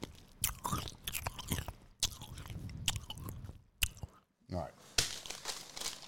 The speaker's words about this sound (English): Let me eat this. ASMR.